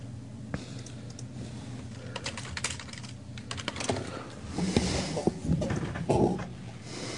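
Computer keyboard typing as a credit card number is entered, a long run of quick, irregular key clicks at moderate level, growing a little busier and heavier toward the end.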